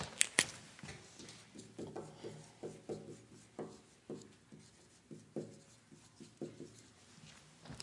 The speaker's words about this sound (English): The reason I'm writing them all up on the board is that these are all words that Mark uses.